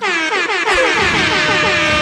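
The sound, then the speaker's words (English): Air horn blast at a hockey game: one loud, sustained, brassy blast with rich harmonics. It runs through the whole clip and wavers briefly at the start. “Hold on, my air horn.”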